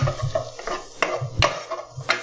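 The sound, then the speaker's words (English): A big spoon stirring half a cup of onions with a little garlic as they sauté in a pan, giving several rhythmic scraping and clattering strokes at an uneven pace. “So it's just 1/2 cup of onions that we are now sautéing. Yep, and we added a little bit of garlic”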